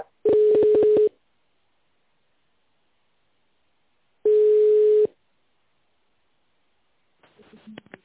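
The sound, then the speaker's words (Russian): Telephone ringback tone while a call is transferred: two long, steady mid-pitched beeps separated by a few seconds of silence, then faint noise on the line. “Я сейчас переведу на специалиста, если на месте трубочку возьмет.”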